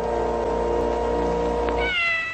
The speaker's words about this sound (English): That little kitten meow at the end of the Mary Tyler Moore episodes